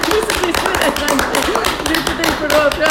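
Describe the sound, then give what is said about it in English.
A group claps together at a birthday celebration, many sharp claps in a steady, even rhythm while a voice counts along over them. “That's a fuckload of claps.”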